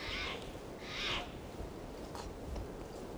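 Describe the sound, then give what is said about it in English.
Soft, hoarse calls from decoy birds: two clearer bursts, then a few fainter ones, over a steady low background hiss. “I think I hear the decoys calling.”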